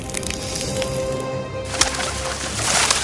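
Birds calling in a fairy-tale palace as dead birds come back to life: a few soft cooing and chirping calls over a rushing wash of noise that grows louder.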